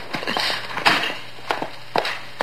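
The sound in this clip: Footsteps of two people walking to a car after a party: a few scattered, soft steps at an uneven pace over a faint steady hum.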